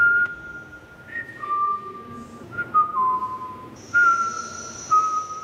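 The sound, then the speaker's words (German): Melodic whistling: an artist whistles his grandfather's favourite song through loudspeakers, clear sustained notes that step up and down in pitch across several phrases, alone with no talk. “Während die Scheinwerfer die Besucher grell anstrahlen, hört man aus Lautsprechern den Künstler das Lieblingslied seines Großvaters pfeifen.”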